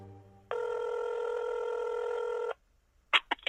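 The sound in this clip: One long ringback tone sounds on an outgoing phone call, a steady, buzzy tone lasting about two seconds, followed after a pause by a few short bursts of sound.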